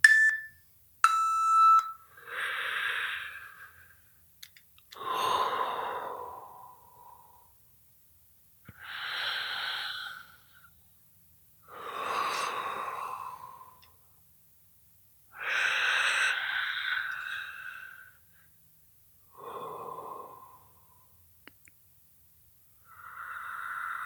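Heavy breathing close into a microphone, about seven slow, noisy breaths separated by stretches of silence, with a few brief electronic beeps at the very start.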